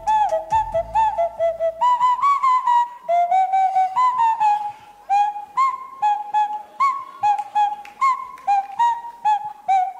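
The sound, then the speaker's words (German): Nose flute playing a bouncy tune of pure, breathy, whistle-like notes, mostly short and detached with a few held tones, steady and fairly loud, with no talk. “Wie das klingt, wird uns jetzt mal unser ehemaliger ESC-Kandidat Isaac vorspielen. Der hat ja 2024 für uns gesungen, da hat er keine Nasenflöte gespielt, aber er kann das.”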